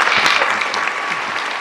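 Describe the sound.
A church audience applauds a guest speaker with loud, dense clapping that holds steady throughout.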